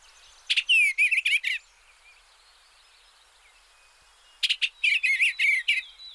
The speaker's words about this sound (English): we have the sound of an eastern bluebird. Here's a listen.